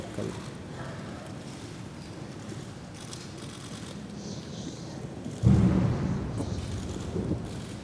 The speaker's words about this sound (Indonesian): Sebaik lafaz kabul disahkan, tembakan meriam sebanyak 17 das dilepaskan sebagai menandakan istiadat akad nikah diraja telah sempurna.